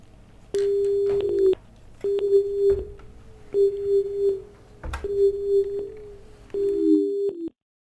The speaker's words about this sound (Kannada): ಕರೆ ಕಡಿತಗೊಂಡಿದೆ